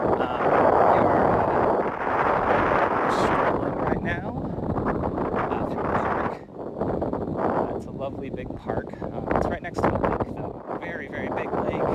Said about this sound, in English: There's a lot of wind coming in off the lake. Oh, it probably sounds very, very bad.